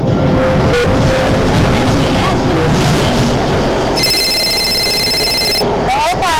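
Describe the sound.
A telephone rings in one bright, high tonal burst partway through, set against a continuous busy, noisy background, with a short chirping tone following soon after.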